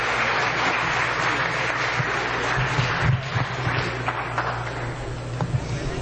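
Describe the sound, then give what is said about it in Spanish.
Steady applause from an audience at a church service carries on for about six seconds, a dense, even patter of many clapping hands at moderate loudness. “Un aplauso más grande para nuestro Señor Jesucristo en esa mañana.”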